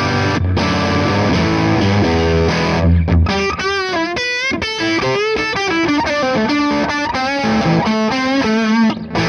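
Distorted electric guitar played on the bridge pickup: a loud, sustained chord rings at first, then after a brief break the playing turns into a busier run of changing notes and chords.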